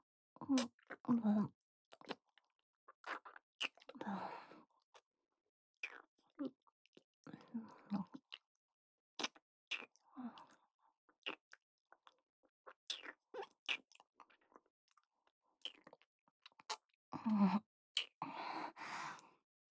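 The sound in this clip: Soft chewing and eating sounds, many faint, close bites and wet mouth noises in irregular bursts separated by near silence, with quiet whispering in places.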